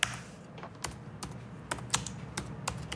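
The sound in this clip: Typing on a computer keyboard: quiet, irregular keystrokes, some closely spaced and others separated by short gaps, with no voices.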